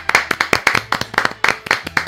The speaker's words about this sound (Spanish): se merece nuestro aplauso